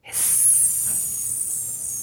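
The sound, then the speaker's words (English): A voice imitates a hissing sound with one long, breathy exhaled hiss that starts abruptly and holds steady for about two seconds, fairly loud and alone. “The sound for grief is hiss. It's like a hissing sound.”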